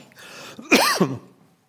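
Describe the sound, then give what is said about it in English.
A single coughing burst from a man during a public talk, a short, harsh throat-clearing cough that follows a faint breath and rises abruptly above near silence before fading. “Could someone get me a drink of water? I'm going to start coughing.”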